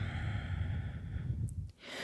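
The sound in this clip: Steady breathing during a yoga exercise in the warrior II pose: a long, sustained, breathy airflow at even loudness that stops abruptly near the end, followed by a short softer breath.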